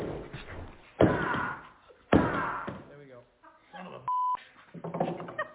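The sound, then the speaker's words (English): A locked gun case is smashed open with two loud, heavy slams about a second apart. Scuffing and handling noises follow, along with a short electronic beep, while a man talks around them. “I don't travel with guns very often, so I don't know how to operate these. I'm gonna smash this son of a bitch open.”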